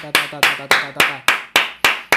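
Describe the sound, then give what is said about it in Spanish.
Slow, evenly spaced hand claps: seven sharp, loud strikes in a steady rhythm, with a voice talking quietly underneath between them. “Bien, un aplauso, aplaudan,”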